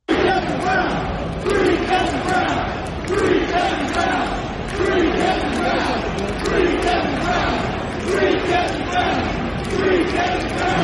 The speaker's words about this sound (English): the chant that broke out in Camden Yards